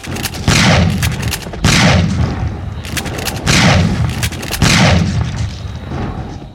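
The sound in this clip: Gunfire as people shoot to keep attackers from getting inside: four loud, booming shots at irregular intervals, each a sharp blast trailing into a rumbling decay.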